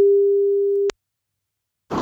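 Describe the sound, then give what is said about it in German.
A single ringback tone from an outgoing phone call: a steady, mid-pitched beep lasting about a second, then silence, with a short noisy burst at the very end. “Timo bekommt jetzt einen Anruf von mir und Timo muss jetzt nur noch rangehen.”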